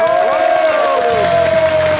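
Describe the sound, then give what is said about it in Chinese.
Audience applause and cheering greeting a young crosstalk comedian as he takes the stage, loud and unbroken, with a sustained whistle-like tone and shouts mixed into the clapping. “那咱们就接下来用热烈的掌声有请青年相声演员李火炎闪亮登场。”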